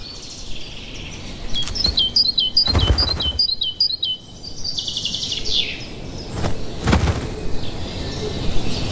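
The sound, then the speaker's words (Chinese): A great tit calling in a quick series of high, bright chirping notes during the first half, with occasional soft knocks and rustles around them. “这只大山雀十分喜欢西方袍脱落的毛，它可以用这些毛来筑巢，”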